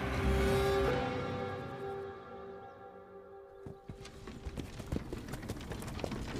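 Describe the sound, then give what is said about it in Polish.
Hooves clip-clop as a horse-drawn wagon travels, a faint, irregular run of light knocks and clicks that emerges after a droning tone fades away. “Kołysanie wozu było jedynym czynnikiem, który w pewnym sensie uspokajał Annę w tej nieznośnej podróży.”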